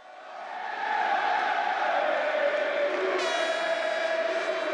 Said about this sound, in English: Thousands of fans cheered Sunday afternoon when Juventus clinched its 29th season title in the top A division.